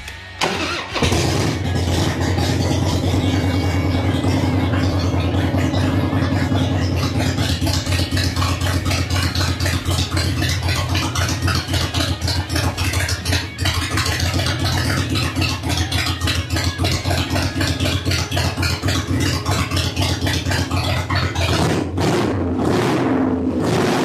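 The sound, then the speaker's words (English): A motorcycle engine starts and settles into a steady idle after its carburetor idle screw is adjusted to open the butterfly slightly. It runs loud and even for about twenty seconds, then turns uneven near the end. “adjust this idle screw so it's just off, just moves that butterfly just a little bit. It should at least allow us to idle. So, moment of truth, huh? Let's see how it does. See how it starts, see if it idles.”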